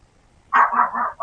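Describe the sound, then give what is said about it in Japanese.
A dog barks live in a studio, a few loud, mid-pitched barks in quick succession after a short quiet stretch, with no voices over them. “吠えてるからね、これ。生で吠えてるからね”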